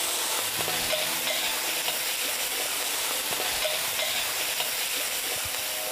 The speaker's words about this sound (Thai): ใส่กระเทียมลงไปเจียวกระเทียมกับน้ำมันครับจากนั้นใส่ผักกาดดอง